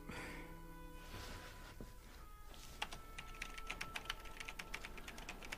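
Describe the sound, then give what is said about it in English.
Constant typing on a keyboard, added later as an exaggerated sound effect. Many quick, light clicks patter on without a break over a steady low background hum. “So you added in all the sound effects later of her typing constantly, right? Yeah. Just tried to exaggerate it a little bit.”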